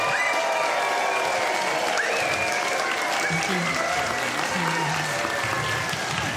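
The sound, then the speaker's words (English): A live show audience breaks into loud, steady applause with some whooping and cheering mixed in, a dense, continuous wash of clapping that holds at an even level throughout. “So could I please get a big round of applause and a whoop and a cheer around the room? Please, do, start it now. So now, whooping, cheering, and we welcome to the stage Athena Kugblenu and Norris.”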